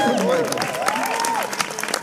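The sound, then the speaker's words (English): Audience applause with one voice sounding over the clapping at first; the crackling claps carry on at an even, moderately loud level for about two seconds. “Yes, a round of applause for puberty.”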